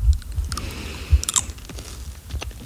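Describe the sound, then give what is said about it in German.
Crunchy chewing of a Hitschies snack, with several crisp crunches and bites in an uneven rhythm and no talking. “Es macht zumindest einen guten Crunch. Das schmeckt nix. Der schmeckt wirklich noch nix.”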